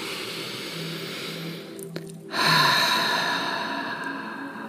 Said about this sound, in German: atme einmal tief ein und über den Mund wieder aus.